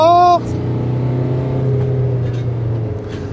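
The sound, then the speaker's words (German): A car towing a caravan accelerates to overtake a mowing machine, giving a steady low engine drone and road rumble throughout, after a brief higher tonal sound at the very start. “Ich habe gerade eine Mähmaschine überholt und habe also es war jetzt noch nicht richtig, richtig knapp, aber ich hatte die Lücke bis zum Gegenverkehr ein bisschen größer eingeschätzt. Der Wagen beschleunigt mit Wohnanhänger dann doch ein bisschen weniger”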